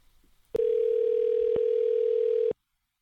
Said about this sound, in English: Let's try this number. Probably won't answer. Probably go to voicemail and I'll hang up.